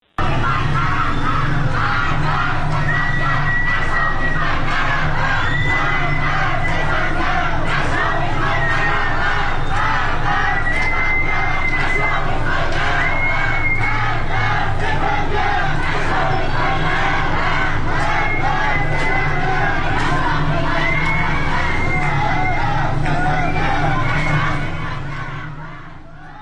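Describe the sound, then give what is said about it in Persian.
Protesters on Jamalzadeh Street in Tehran chant loudly and continuously, a dense mass of rhythmic shouting voices that fades near the end. “در خیابان جمال‌زاده تهران معترضین زیادی رو شاهد بودیم. بشنویم با هم صدای ویدیویی که از این خیابون به دستمون رسیده.”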